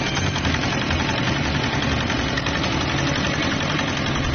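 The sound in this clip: A fishing boat's engine runs at a steady, low, rumbling idle, even in loudness with no clear start-up surge, heard alone without talk.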